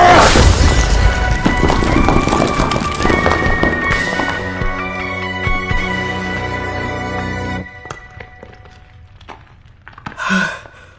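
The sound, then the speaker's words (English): A big explosion blast: a loud, booming burst with heavy low rumble at the start, fading into sustained ringing tones that decay over several seconds until it falls nearly silent. “Blast. Yeah. Big blast.”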